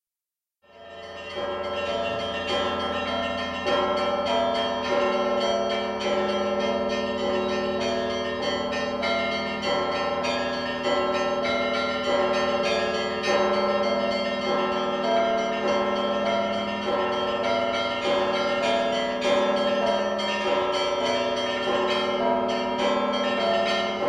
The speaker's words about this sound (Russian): «Трезвон красный! Всем колоколам звонить! Всей Москве, всем, кто есть вокруг, к иконе прикладываться!»